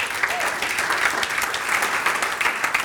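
A church crowd applauds to welcome a woman to the stage, with steady, dense clapping throughout that does not let up.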